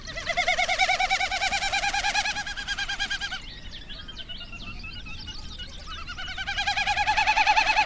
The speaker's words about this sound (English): Discover more about the birds you just heard